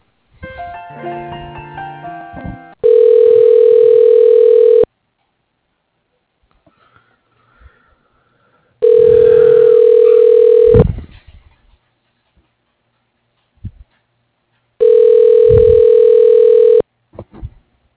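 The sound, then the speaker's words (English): Telephone ringback on an outgoing call that ends in voicemail. A short burst of mixed dialing tones comes first, then three long, steady ring tones, each about two seconds, evenly spaced with quiet gaps. Faint sniffs fall between the rings. “Usually it just rings and then goes to voicemail.”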